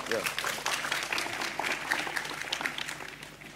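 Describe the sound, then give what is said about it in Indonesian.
Applause from an audience at a religious gathering, a dense, steady patter of clapping with a voice speaking over it. “Tepuk tangan Pak Muzamil.”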